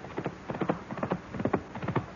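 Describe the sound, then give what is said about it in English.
Rapid horse hoofbeats, a steady clip-clop of many sharp hollow strikes in an uneven galloping rhythm, with no voices over them. “The hoofbeats. This time they're coming straight for the house.”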